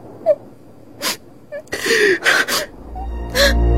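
A child cries and sobs in halting bursts, with high whimpers and sharp, gasping intakes of breath separated by short, uneven pauses.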